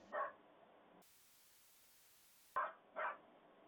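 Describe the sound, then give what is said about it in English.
A dog in a video barks off a stool: one short bark, a long pause, then two quick barks close together, each bright and clipped. “Dog's barking. Not mine, she's quiet. No, I'm just watching this dog video. This dog is barking off a stool.”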